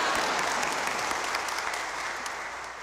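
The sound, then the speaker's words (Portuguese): Clapping in honor of Our Lady of Fátima at a religious celebration, a thick, even wash of applause from a crowd that stays steady and then slowly thins toward the end. “Palmas para Nossa Senhora.”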